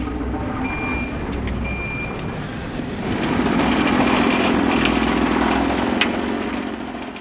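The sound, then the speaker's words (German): A railway track-straightening machine works at night with a heavy, steady engine rumble and grinding that swells louder partway through. Two high warning beeps sound early on. “Das sind Angaben zum Gleisrichten. Braucht die Maschine, die in der Nacht immer so laut ist.”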